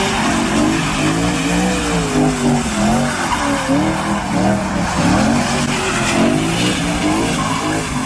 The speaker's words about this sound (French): le chauffard est un addict des grosses cylindres et il se filme à des vitesses folles dans les rues liégeoises, comme vous pouvez l'entendre ici.